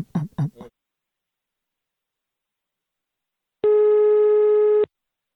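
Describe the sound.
A telephone busy tone sounds while a call is being placed: a single steady electronic tone lasting just over a second, coming after a brief burst of voice and a silent pause.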